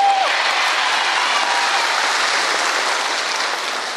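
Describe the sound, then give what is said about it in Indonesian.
Audience applause: a dense, steady wash of many hands clapping that holds level throughout and tapers slightly at the end, with no speech. “Ora usah tepuk tangan. Apa artinya tepuk tangan tanpa saweran?”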